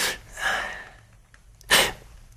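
A woman sneezes: a sharp, breathy burst, a softer burst of breath just after it, then a louder second burst of sneezing air. No talk is heard.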